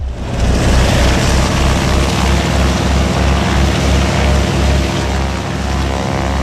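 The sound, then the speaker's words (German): Steady, loud drone of propeller aircraft engines running before an air show in Grenchen, a dense unbroken roar throughout. “Propeller laufen und die Maschinen waren heiß für den Start der Flugshow Wings and Friends zu Grenchen.”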